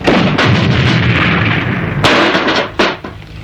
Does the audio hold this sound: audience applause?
no